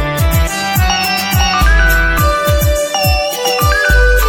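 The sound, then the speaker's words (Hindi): A phone ringtone plays while a call is placed to a son: a loud electronic melody of bright repeating notes over a steady thumping beat, with no voices. “बेटा को phone लगा दो।”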